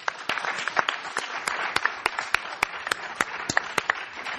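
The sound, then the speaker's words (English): An audience applauds to welcome a panel of speakers at an evening program. Dense, even clapping is broken by many sharp single claps, and the applause stays steady throughout. “Please give our panelists a warm welcome.”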